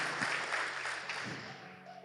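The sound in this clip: Audience applause, a steady dense patter of many hands clapping that holds fairly even and eases off slightly toward the end.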